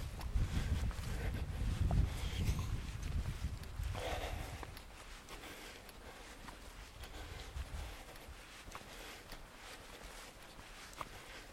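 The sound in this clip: Footsteps of a person walking outdoors, soft, irregular steps that are hard to pick out under steady wind noise buffeting the microphone, with no talking.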